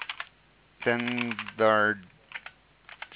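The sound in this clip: Typing on a computer keyboard: faint, scattered key clicks at the start and end, with a held voiced sound from a person between them.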